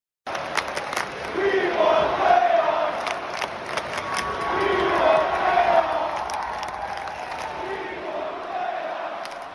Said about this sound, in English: There's the chant that Kenny played here. Kenny, how cool is that for Sens fans to be able to do that, to create that kind of atmosphere